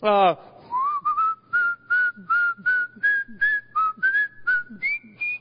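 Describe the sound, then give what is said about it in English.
Someone whistles a spiritual hymn tune from a church hymnal, a clear, loud melody of many short and held notes in a steady, unhurried rhythm, heard alone. “It was just a spiritual song, something out of our hymnal. And I'm whistling away.”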